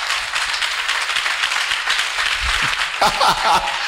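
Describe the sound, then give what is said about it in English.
An audience claps in a dense, loud patter for about three seconds, then a voice cuts in over the last of the clapping. “hey are you clapping for my god”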